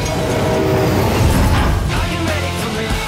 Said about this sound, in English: Train. That is a train.